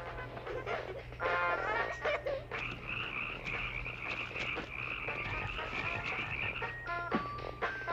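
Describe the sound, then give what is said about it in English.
Frogs croak in a film scene, a dense chorus of overlapping croaks and trills that runs continuously throughout, with no voices over it. “Every couple minutes, just to establish that there are frogs all over the place.”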